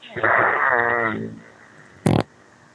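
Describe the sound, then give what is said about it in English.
A voice imitates a fart with a buzzing, wavering raspberry that lasts about a second and fades, then after a pause a short, harsh burst of noise cuts in. “When our farts combined, we are Megatron.”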